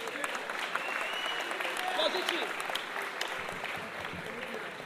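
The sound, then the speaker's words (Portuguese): Applause from a crowd at a community gathering: dense, steady clapping that lasts the whole time, with voices over it. “receba uma salva de palmas do povo da Vela.”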